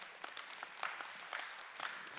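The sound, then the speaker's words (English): A church audience claps during a sermon, a steady patter of many hands that stays fairly faint and even throughout, with no voices over it. “Oh, yeah, you know, you clap for that.”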